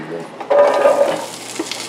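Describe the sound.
Root vegetables such as onions, carrots, celery, parsnips and rutabaga sizzle as they sauté in butter in a pan, with a brief burst of frying and stirring that then settles to a softer hiss.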